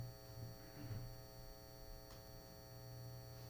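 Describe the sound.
Steady electric fan running with a low, even hum that stays level throughout, with no other clear sounds on top.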